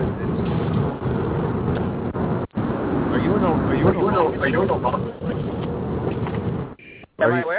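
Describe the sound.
Muffled car-interior rumble and rushing wind noise from a moving car, carried over a speakerphone call while driving. A steady, dense roar sits under a talking voice, with two brief dropouts near the end.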